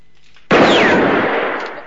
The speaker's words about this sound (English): Valance shoots at the gun on the ground